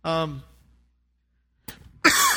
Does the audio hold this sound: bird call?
no